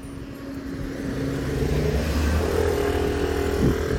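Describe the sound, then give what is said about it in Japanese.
A motorcycle passes close by outdoors, with a continuous engine rumble and rattle that grows slightly louder partway through. No voices are heard. “今近くをですね、バイクが通り抜けてきましたけどね。”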